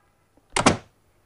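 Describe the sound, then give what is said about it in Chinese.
A door being shut: one short, muffled thud with a doubled knock as it closes, alone against near silence. “我想请你把门关上，我有话对你说。”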